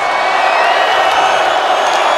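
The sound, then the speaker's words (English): Crowd cheering at a wrestling show, a broad, sustained roar of many voices that stays loud and steady with occasional whoops cutting through. “They're cheering it.”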